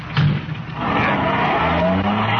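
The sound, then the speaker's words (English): A car drives off with loud, steady engine roar and rushing tire noise that holds through the whole short clip, with no talk over it. “Here's the car. Let's go.”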